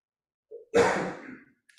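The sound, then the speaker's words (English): A deliberate, slow exhale of breath during a Zen meditation practice: a brief soft intake, then one long, gentle outbreath that fades gradually, heard alone. “We take a, a, breath consciously, deliberately, and we let it go.”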